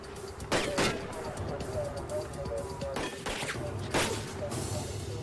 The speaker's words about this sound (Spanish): Los oficiales le disparan 4 veces más.